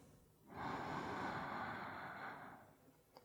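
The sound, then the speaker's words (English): A single long, deep breath drawn in through the nose during a calm meditation, a soft steady airy rush that holds for about two seconds and then fades. “let's take another deep breath here in through the nose.”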